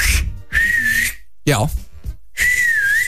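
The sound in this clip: Loud, shrill finger whistling: two sustained, fairly steady high whistles and a short one at the start, with a brief burst of voice between them.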